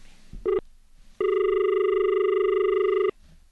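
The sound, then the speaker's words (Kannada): A telephone rings for an incoming call: one short electronic burst, then a single steady, bright ring of about two seconds that holds an even pitch before it cuts off. No voices are heard. “ಮತ್ತೊಂದು ಕರೆ ಇದೆ ಅನ್ಕೊಳ್ತೀನಿ.”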